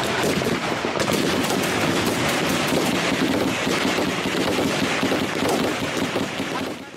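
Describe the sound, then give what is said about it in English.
Intense gunfire from a mountain battle in Yemen, with small arms, heavy machine guns and RPG fire: a dense, continuous crackle of rapid overlapping shots and bursts, loud and unbroken from start to finish. “RPG fire, small arms fire, technicals that they used, heavy machine guns.”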